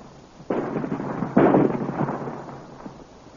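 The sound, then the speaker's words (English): Cannon fire blasting a rock, as a drama sound effect: two heavy booms, the second louder, each followed by a rough rumbling decay that slowly fades. “Ready with the range? They have found the range, Commander. You may fire. Fire!”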